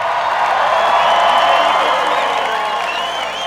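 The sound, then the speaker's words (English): Crowd applauding and cheering to welcome Jimmy Buffett at a Hawaiian-themed show: a dense, steady wash of clapping with whoops and shrill whistles riding on top. “Would you everybody give a real nice Hawaiian aloha welcome for Brother Jimmy Buffett? Give it up.”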